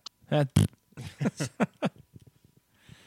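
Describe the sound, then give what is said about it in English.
A voice imitates a fart with short, buzzy blown raspberry sounds, mixed with other abrupt voiced bursts and some talk. “it, like, forced a fart out while I was pooping. Because I was on the toilet, and then, like, I just, like, I kind of did, like, a, just like a,”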